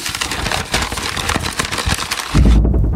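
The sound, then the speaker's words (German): An imitation of a leaf beetle rustling in leaves, made with a dense, loud crackle of crunching, scraping rustles that ends in a short, lower rumbling burst. “aber so hört sich ein Käfer im Laub an. Laubkäfer.”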